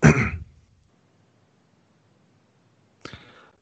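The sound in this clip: A large bag holding about four pounds of piñata candy rustles as it is moved, in two short crinkly bursts separated by a few seconds of near silence.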